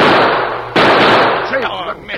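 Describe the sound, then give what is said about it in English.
Gunshot in a radio drama: a loud, sharp blast breaks through a dense noisy wash, followed by a rough decaying tail, with a brief voice sound just after. “Get your guns. Go after him. Fire.”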